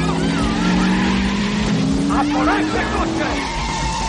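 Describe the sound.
Tires squeal loudly as a car reverses and skids on city streets while police cars chase it and block its way. Engine noise and sustained, wavering squeals run steadily through the whole clip.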